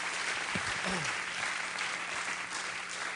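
A church audience applauds to welcome a missionary to the pulpit, a dense and steady clapping that holds at an even level throughout.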